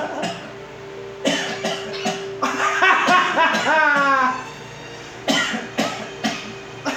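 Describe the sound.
Coughing imitated by a player during a tabletop role-playing game session: a few rough, breathy bursts, then a busier stretch, and more short coughs near the end, with people talking around them.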